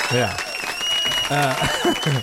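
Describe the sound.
Audience applause greets a performer being introduced. A steady wash of clapping runs throughout, with voices talking and calling out loudly over it.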